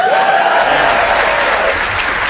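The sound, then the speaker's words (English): A smattering of applause from a game-show studio audience, a steady wash of light clapping held at an even level throughout. “Matthew, you just got what we call a smattering of applause in the the story of my life.”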